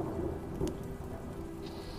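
Steady rain falls as an ambient effect during a fantasy tabletop role-playing session, a continuous dense hiss of drops with a low rumble of thunder beneath and no talking.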